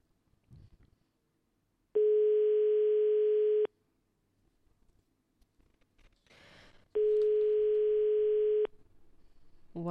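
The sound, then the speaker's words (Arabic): Ringback tone of a telephone ringing on an outgoing call: two long, steady, buzzing tones separated by a pause of a few seconds, with faint scattered noises between them. “والرقم يرن”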